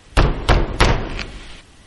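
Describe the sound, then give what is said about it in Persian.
A few heavy, hollow knocks strike a wooden door in quick succession, loud and booming, with a fainter trailing rap before the sound dies away. “پیرزن هنوز چادر خیسش رو از سرش بر نداشته بود که دوباره صدای در اومد.”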